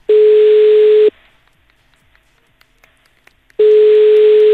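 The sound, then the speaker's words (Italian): A telephone busy tone sounds after a call is hung up. A steady, mid-pitched beep holds for about a second, then comes a pause of roughly two and a half seconds, then the same loud tone again, with no voices. “Ah, attaccato.”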